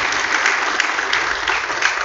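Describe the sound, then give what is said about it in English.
A round of applause rises from the audience at a Father's Day gathering, dense and even clapping that stays loud and steady from start to finish. “we don't have a lot of applause, but we can give another round of applause.”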